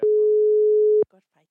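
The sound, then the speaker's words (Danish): A telephone ringback tone sounds while a call is being placed: a single steady, mid-pitched beep that lasts about one second and then cuts off. A few brief, faint voice fragments follow. “Da skal vi ringe opp Tore Sagen og gratulere han.”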